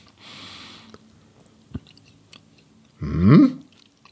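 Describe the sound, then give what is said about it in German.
Chewing and biting into bread topped with egg and caviar. A few moist, crunchy bursts of mouth noise and a sharp click are separated by quiet gaps, ending in a louder wet chew. “Du kannst auch das Ei runternehmen, machst es ganz rein und beißt dann noch einmal vom Brot ab.”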